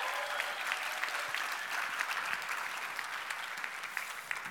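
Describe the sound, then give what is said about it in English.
Audience applause at the 2018 New Year's Conference, a dense, steady wash of clapping that holds at an even level throughout with no voices standing out. “Give her one more round of applause, please, y'all.”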